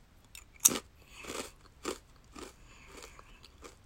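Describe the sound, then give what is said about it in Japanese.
Crunchy bites into small, round edamame-flavoured rice crackers from a convenience store, heard as several crisp crunches and crackles at an uneven chewing rhythm, with no talking. “セブンイレブンの、あの、枝豆あられよりもちょっと小さめの小ぶりの、なんか可愛らしい感じのフォルムしております。じゃあ食べてみたいと思います。”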